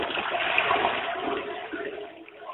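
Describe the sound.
A toilet cistern flushing: a steady rush of water that holds strongly for over a second, then gradually thins and tapers off toward the end.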